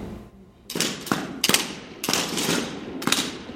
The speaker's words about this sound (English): The tour ends with a visit to a virtual firing range.